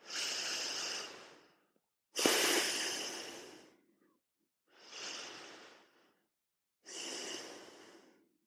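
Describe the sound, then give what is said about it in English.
Slow, deep breathing through the nose, in four long airy breaths of inhaling and exhaling. Each swells quickly, then tapers over about a second and a half, with short silent gaps between. “Let's try another. Whole body inhale and exhale from your nose to your toes.”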